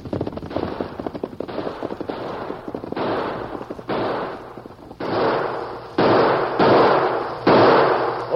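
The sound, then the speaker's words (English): Gunfire in a radio drama shootout, with shots aimed at a man and one bullet passing through his hat. Several dense, sharp bursts follow one another, growing louder toward the end, with no voices. “You ornery polecats, they fired at me. That bullet went right through my hat.”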